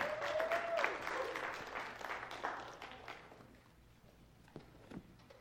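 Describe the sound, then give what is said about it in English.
A church audience applauding to welcome someone during a morning service, dense clapping that gradually thins and fades, ending with a few scattered late claps. “church, if you can put your hands together, and we're going to welcome Miss Anita this morning”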